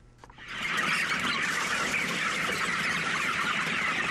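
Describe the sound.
A steady, dense chorus of clucking from a flock of about 2,000 chickens kept in a large poultry farm hall with many windows. The clucking swells in within the first half second and continues without pause.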